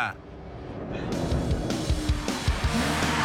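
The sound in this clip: V8 car accelerating hard on a straight road, its engine noise swelling into a loud, sustained roar that holds strongly to the end.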